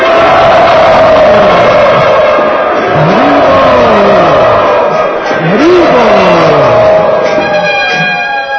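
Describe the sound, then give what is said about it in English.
A crowd of devotees chants loudly together, voices rising and falling in sustained melodic phrases over a dense, continuous wall of sound. “We would like to welcome all of these wonderful devotees to our program here by loudly chanting.”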